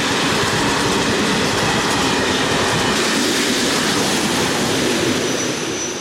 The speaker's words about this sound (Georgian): მატარებლის თვლებმა გაისრიალა რელსზე, რომელსაც კაცია იწვა და განაგრძო გზა.